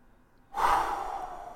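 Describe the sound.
A single deep breath drawn by a person, a soft airy rush that starts abruptly after a brief silence and tapers off slowly, fairly faint and heard alone.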